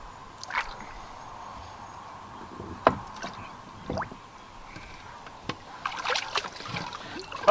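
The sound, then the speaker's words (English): Soft splashes and drips from oars as a small boat is rowed on a turtle pond. A few irregular strokes sound faint and quiet, with occasional sharper dips into the water. “I'm not going very far. This turtle pond is probably not the right place to row.”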